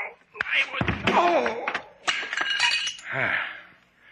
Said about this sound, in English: Slate, what happened? Why did you hit him over the head with a doll?